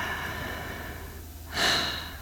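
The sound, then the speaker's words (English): A single deep human breath arrives as a brief, breathy rush of air near the end, after a quiet stretch of steady low background hum. “Just breathe, sweetheart. Okay? You're safe. I've got you. Okay? Just close your eyes. Let's take a breath.”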